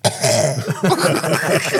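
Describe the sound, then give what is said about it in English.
A voice imitates a cough, as if a footballer with a cold is responding to a chanting crowd, producing rough, throaty hacking bursts that run through the whole clip. “Ollie, Ollie, give us a cough. And he looked around the dugout and went...”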